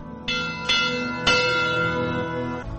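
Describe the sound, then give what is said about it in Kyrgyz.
A memorial bell is rung in honour of climbers who died in the Kyrgyz mountains. Several loud, metallic strikes sound alone, each ringing on with a long, shimmering decay that overlaps the next. “ушу кыргыз тоолорунан, чокуларынан түшө албай калгандардын урматына коңгуроо кагып коюлушат.”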